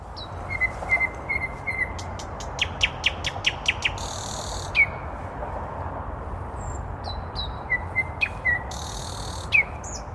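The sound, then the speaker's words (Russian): A nightingale sings in a city park in Moscow, delivering varied phrases of clear whistled notes, a rapid run of sharp repeated clicks and a couple of buzzy bursts over a low, steady background rumble. “это соловей, самый настоящий.”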